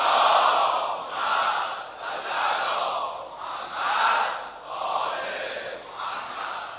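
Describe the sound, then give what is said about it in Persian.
A large crowd loudly chants salawat in unison at a gathering where six unknown martyrs are buried, the voices rising and falling in about six long, regular swells. “صلوات جلی ختم کنیم.”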